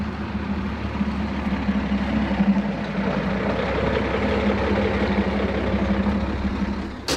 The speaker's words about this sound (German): Die drei Fahrzeuge erreichen den Bahndamm. Die beiden Land Rover halten am Straßenrand in der Nähe der Signalbrücke. Der Dreitonner fährt weiter zur Predigo-Brücke.